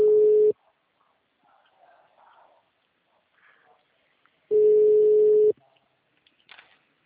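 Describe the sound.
A telephone rings on the line with steady, low tone bursts: a short one at the start and a longer one about four seconds later. A faint murmur fills the quiet gap between them.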